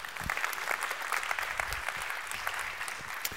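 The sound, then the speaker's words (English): Applause from a church audience welcoming viewers during a worship service: a steady wash of many hands clapping continuously at moderate loudness, with no talk over it. “So those of you who are on site with us, would you put your hands together and welcome in our online family?”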